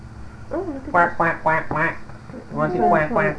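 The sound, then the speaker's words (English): A voice imitates a duck, making loud nasal quacks in two quick runs separated by a short pause. “Quack, quack, quack, quack. You want to see quack, quack, quack?”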